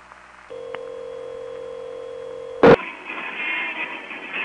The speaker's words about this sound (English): Okay, I dialed it, and it ought to be coming in any second now.